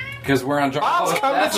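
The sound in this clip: A cat meows in a bar, brief drawn-out cries mixed in with people talking over it.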